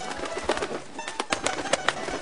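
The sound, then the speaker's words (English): Scratchy squawks from a pet parrot come in a quick, uneven series of harsh calls. They are fairly faint over a noisy background, and no one speaks. “Ah, that's a good parrot.”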